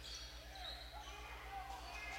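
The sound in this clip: A basketball bounces on the court during a Warriors game, with faint thuds and sneaker squeaks under steady crowd noise and a commentator's talk.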